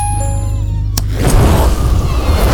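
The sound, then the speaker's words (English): A blast of fire shot from a portal caster gadget: a steady low tonal hum is cut by one sharp crack, then a loud, low, rumbling roar of rushing flame continues. “Did you just shoot fire out of your portal caster? Looks like it.”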